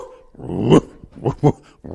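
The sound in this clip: A man's voice imitates a dog barking: a few short, gruff bark-like yelps, the first longer and louder, then two quick ones close together and another starting at the end.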